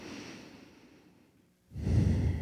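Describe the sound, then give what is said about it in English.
A deep breath during a guided relaxation and prayer: a soft, airy draw of air that tapers off, then a short gap before a louder, lower rush of breath. “And then I'll invite you to take a deep breath”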